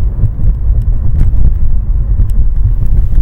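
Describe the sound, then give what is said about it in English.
Steady, loud low rumble of road and engine noise inside a moving car, constant throughout with no talking. “Again, I'm physically driving and I'm just like taking quick glances.”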